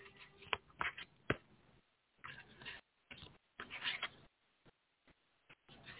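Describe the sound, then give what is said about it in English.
Cards from an Angel Tarot deck are shuffled and handled in quiet, intermittent bursts of rustling, with several sharp flicks and snaps separated by brief silent gaps. “So I'm going to use the Angel Tarot deck.”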